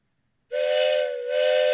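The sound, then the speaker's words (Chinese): A train whistle with a steam-whistle tone sounds one loud, shrill, sustained blast. It starts abruptly after a short silence and holds a steady pitch, with a brief dip in strength partway through. “9月13号星期天，要不要搭火车去竹田？”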